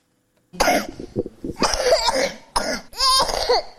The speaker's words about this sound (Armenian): մինչ երեխայի մոտ հազի հերթական երկարատև նոպան է սկսվում